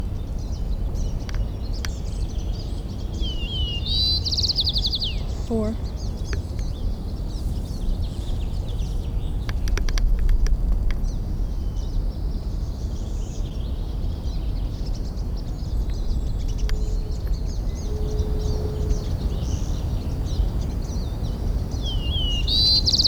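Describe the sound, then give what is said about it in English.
A white-crowned sparrow sings short, high, whistled phrases, one near the start and another at the end, with a few faint chirps between them over a steady background hiss. “White Crown Sparrow A, continued.”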